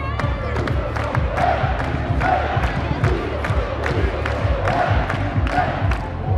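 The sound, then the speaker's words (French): Crowd ovation and cheering as the trophy cup appears on stage at a supporters' celebration ceremony in French-speaking Switzerland, a dense roar of voices with a steady run of sharp, regular beats through it. “La coupe vient d'apparaître sur scène sous les ovations du public.”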